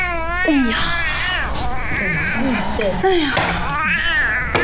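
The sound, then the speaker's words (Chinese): An infant cries in a wavering, high-pitched wail while a grandmother soothes it during a tile game. Her voice runs alongside the crying throughout. “咱不哭了啊，不哭了，等会儿啊，奶奶摸牌啊”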